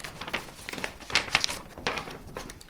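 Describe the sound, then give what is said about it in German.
Crinkly paper rustling as an old folded map of the Großglockner area from 1870 is opened out, a few sharp crackling bursts with softer rustles between them, no talk. “Die Kunsthistorikerin faltet die Karte auf.”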